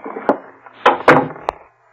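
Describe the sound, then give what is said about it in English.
A door being unlocked and opened, leading into an upstairs bedroom of a duplex: a few sharp wooden clicks and knocks, then louder thuds and a rattle, before the sound dies away to quiet. “I always keep the door locked. Go inside, please.”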